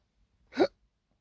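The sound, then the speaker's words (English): A single short hiccup, a quick sharp vocal catch, alone in near silence. “Oh man, I got the hiccups out of the blue.”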